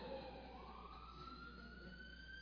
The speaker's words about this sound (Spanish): Mira, ya viene hasta la ambulancia, viene.